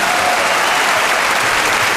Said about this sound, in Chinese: 好，朋友们，掌声。